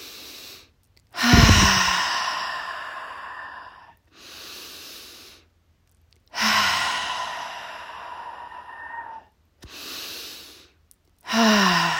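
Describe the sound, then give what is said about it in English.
Slow, deep breaths during a relaxation exercise, long airy inhales and heavy sighing exhales separated by short silences, clear and unhurried, with no talking. “Relax, get comfortable. We're going to take 3 deep breaths.”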